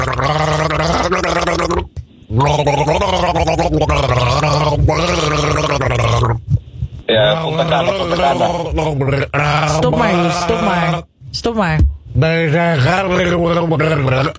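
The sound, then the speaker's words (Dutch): A person gargles a song, producing a continuous bubbling, wavering melody with a few brief pauses between phrases. “Zal ik hem nog even één keertje voor je gorgelen dan?”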